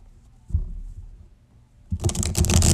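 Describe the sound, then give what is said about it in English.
Tarot cards are pulled from a deck: soft, quiet handling with a brief tap early on, then a louder burst of papery shuffling and flicking fills the final second. “So I'm going to go ahead and pull all 12. Alrighty, Spirit, don't hold back. I need 12 cards for all 12 signs.”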